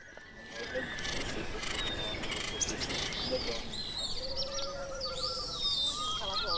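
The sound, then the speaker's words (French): Small, high bird-like chirps and arching tweets sound within a musical piece over a dense, steady textured background. They grow more frequent toward the end. “il y a des petits sons d'oiseaux, des fois, des clins d'œil dans beaucoup de pièces.”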